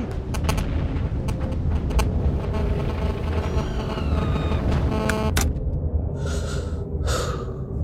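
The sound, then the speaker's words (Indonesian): A 500-kilogram bomb explodes in a heavy, roaring blast. A loud, sustained low rumble is mixed with crackles and sharp bursts, and a couple of separate noisy bursts come toward the end. “Mereka menjatuhkan si hitam. Bom seberat 500 kilo tepat di koordinatmu.”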